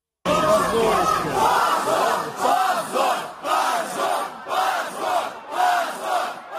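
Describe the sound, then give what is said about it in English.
Supporters of Russia's anti-war Yabloko party chant 'shame' outside the Supreme Court after a verdict barring it from elections. A long opening shout is followed by many short, evenly spaced chants from the massed voices. “That was the sound of the party's supporters chanting shame outside the court after that verdict”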